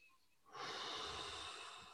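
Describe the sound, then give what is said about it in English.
A single deep breath drawn in, faint and airy, rising suddenly and held as a steady inhale for over a second. “Take a breath.”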